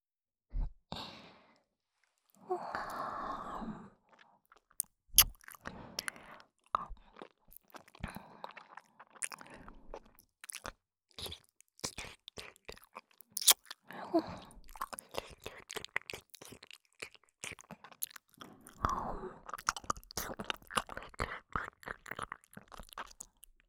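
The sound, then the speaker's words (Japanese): Wet ASMR ear licking and mouth sounds, many irregular soft clicks, smacks and smacking pops that run nearly without pause, broken by a few breathy sighs near the start and toward the end. “体もほてってるからすっごい舐めやすい。お耳の中ほっかほかでとっても美味しいですよ。”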